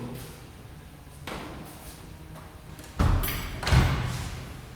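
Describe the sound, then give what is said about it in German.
A door being shut in a shop with a counter and till: soft shuffling, then two heavy thuds close together, the second the loudest, with a short rattling decay after each. “Ich mach mal hier schnell die Tür zu, ja, damit nicht der Nachbar in die Quere”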